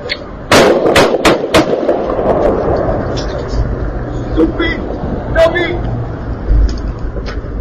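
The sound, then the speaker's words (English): Gunshots from a recorded shooting played over the radio: several sharp, loud bangs in quick succession near the start, followed by voices and rumbling background noise. “You're about to hear right now on the radio a man shot and then literally dying.”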